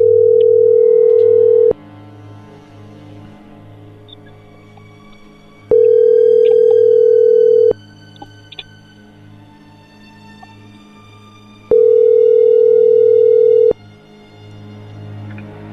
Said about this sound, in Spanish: vamos a marcarle otra vez, a ver si contesta.